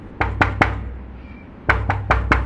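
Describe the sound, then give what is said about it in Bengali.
Knocking on the front door of a yellow stone house: three sharp raps, a short pause, then four more, crisp and fairly loud over a low steady hum. “কুশান তারপরে এগিয়ে গিয়ে দরজায় knock করলো”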